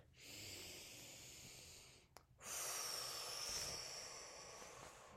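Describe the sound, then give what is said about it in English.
A deep breath is taken slowly and softly, with no other sounds. An airy inhale lasts about two seconds, then comes a brief pause, then a longer, breathy exhale that fades gently. “Take a deep breath.”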